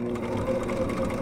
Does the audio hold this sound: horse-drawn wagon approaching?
no